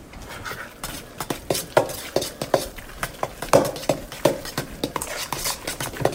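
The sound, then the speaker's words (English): Ground turkey being mixed with spices, herbs, egg and cheese for meatballs, heard as many irregular clinks and soft scraping taps of a utensil against a bowl, steady and moderately loud, with no talking. “I feel like, again, I can get a better distribution of the spices and the herbs and the egg and the cheese all mixed in if I put in the turkey by itself first. So I'm going to do that next.”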